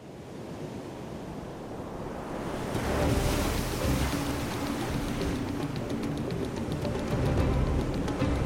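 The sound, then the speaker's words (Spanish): Sea waves roll in and break against coastal cliffs, a continuous rushing roar mixed with wind. The surge swells noticeably partway through and then stays heavy and churning. “Para entenderlo, basta con contemplar cómo llegan las olas y cómo se rompen sobre los acantilados con un ritmo infatigable.”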